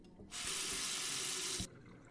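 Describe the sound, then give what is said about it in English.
Tap water gushes into a sink and down the drain in a single steady burst of just over a second, starting and stopping sharply, with nothing else around it. “Here, let's wash all that down the drain, maybe?”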